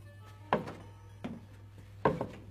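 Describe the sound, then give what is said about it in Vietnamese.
Footsteps on the wooden floor of a hut: three slow, heavy wooden thuds spaced well apart, the last quickly followed by a softer knock, over a faint steady low hum. “Năm Lác đã nghe tiếng bước chân bước lên trên sàn gỗ của những cái chòi.”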